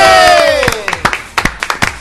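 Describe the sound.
One man claps eagerly before a show starts. A falling tonal sound comes first, then a run of scattered, irregular handclaps that are sharp and fairly loud.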